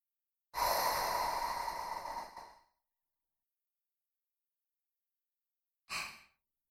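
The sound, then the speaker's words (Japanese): A slow exhale through the mouth during a guided breathing exercise: a long, breathy, airy rush that gradually fades, then a pause and a much shorter second breath. “まずは、ゆっくりと口から息を吐いて、”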